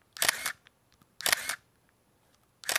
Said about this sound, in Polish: tu chodzi o ten aparat, który brzmi tak.